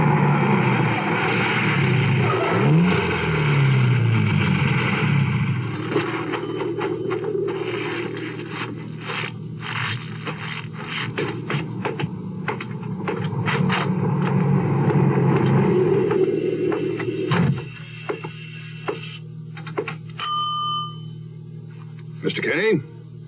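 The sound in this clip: Radio-drama sound effect of a car driving up to a cottage camp: a low engine rumble and hum with scraping touches under a speaking voice, dropping off near the end, after which a few sharp knocks are heard.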